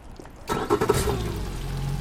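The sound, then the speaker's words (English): Engine noise from a small boat making a very short, slow crossing of the Jones Falls River in Baltimore. It starts abruptly, gives a few louder bursts, then settles into a steady, low, continuous hum. “The boat ride from one side of the Jones Falls River to the other takes about 22 seconds. Find a place to hold on. I drive very slow.”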